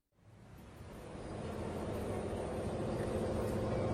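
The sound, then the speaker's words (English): A bus arriving at the stop on the way to school: a broad engine rumble fades in and grows steadily louder, then holds as a continuous roar to the end. “Look, here comes the bus. I sit on the bus and talk to my friends all the way to school.”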